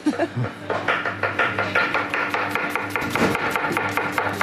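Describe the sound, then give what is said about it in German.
Fast chopping with a knife by a practised young man cutting without looking: a rapid, even run of many sharp, crisp knocks, loud and steady throughout. “Aber ganz schön schnell geschnitten. Also da muss man ein bisschen Angst um die Finger haben, aber es sieht geübt aus. Ohne hinzugucken, macht der junge Mann das.”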